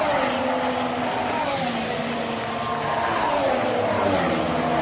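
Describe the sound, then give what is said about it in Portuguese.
2014 Formula 1 race cars racing, a continuous buzzing engine drone that stays loud throughout, with a few slight wavers in pitch and no voices over it. “que era esse som aqui. E agora, esse ano, os carros estão correndo assim.”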